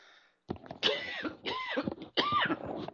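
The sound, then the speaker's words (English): A person coughs a few times in quick succession. The harsh, throaty bursts have a throat-clearing quality, are separated by short gaps, and are heard alone without talk. “Excuse me, coughing already, and we just began.”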